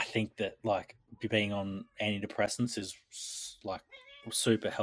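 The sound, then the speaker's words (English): A cat meows briefly under a person's steady talk, a short tonal cry near the end. “Sorry about my cat. He's like, meow, meow.”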